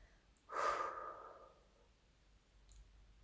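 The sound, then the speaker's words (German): A single slow, full exhale through the mouth during a guided gratitude meditation: a soft, airy rush that swells quickly, then thins and fades over about a second. It is faint and heard alone, with no talk. “Spüre, wie deine Lungen sich mit Luft füllen und atme dann langsam und vollständig durch den Mund wieder aus.”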